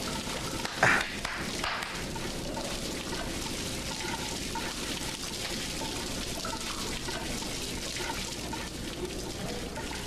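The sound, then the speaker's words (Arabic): Water spraying in a steady rushing hiss that lasts about ten seconds, with a brief louder burst near the start. “ماذا تفعل؟ الماء يرشنا.”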